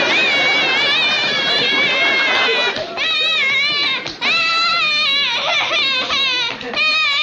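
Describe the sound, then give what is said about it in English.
A child in a tantrum cries loudly, with sustained, wavering wails that rise and dip in pitch and break off briefly between long sobbing cries. “What are you doing now? I was having a tantrum.”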